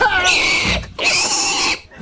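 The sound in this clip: A pig squealing: two loud, harsh, shrill squeals, each sustained for most of a second, separated by a brief dip and fading at the end.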